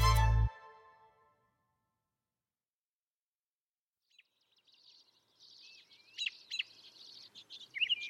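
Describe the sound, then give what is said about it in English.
A robin sings in spring, faint high chirping phrases rising and falling in quick varied bursts, coming after a brief loud low tone at the start and a few seconds of silence. “That sound you're hearing is spring beginning. The song of the robin.”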